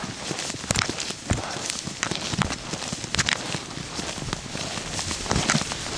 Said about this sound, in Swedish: Nu kommit fram till lite åkrar och sånt där. Åh, vad skönt att få gå på en åker lite.